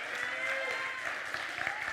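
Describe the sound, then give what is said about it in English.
A church audience clapping in praise during a morning service: steady, dense, fairly faint applause, with a few voices mixed in. “Let's give Him a hand clap of praise this morning.”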